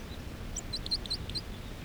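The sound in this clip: A wild bird sings close to the ground, about three feet up. It gives a quick series of many high, thin chirping notes over a steady faint hiss.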